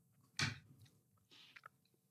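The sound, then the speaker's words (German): Quiet chewing of a soft, chocolatey treat: one sharper bite near the start, then a few faint, moist mouth sounds and small clicks, with no talking. “Ich bin noch am Mümmeln.”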